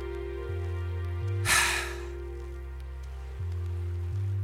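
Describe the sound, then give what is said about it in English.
A breathy exhale pushed out as if fogging up a window to write on it with a finger, heard as one short rush of air over a steady, humming musical background. “exhale as if you're trying to steam up a window to scribble a message on with your finger. Essentially, it's supposed to sound like this.”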